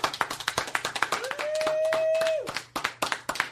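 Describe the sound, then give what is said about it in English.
Audience applause at a live radio show recording: quick sharp claps that swell into a dense wash with a long sustained whistle in the middle, then thin back into scattered individual claps. “Here's what you normally do at a radio show. Ladies and gentlemen, Louis C.K. Everyone applaud.”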